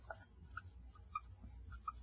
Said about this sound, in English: I guess just to keep the color coding the same, let me write the mechanical part in red